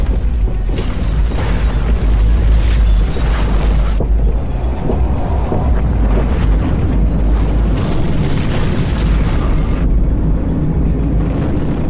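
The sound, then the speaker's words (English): Approaching shockwave blast: a loud, continuous booming roar with deep rumbling power that churns without a break, shifting in texture as it rolls on. “It's coming at us really fast. It looks like a shockwave!”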